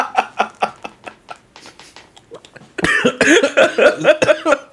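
Someone coughs after choking on a sip of water, with a run of lighter, scattered coughs followed by a louder, rapid fit of harsh hacking.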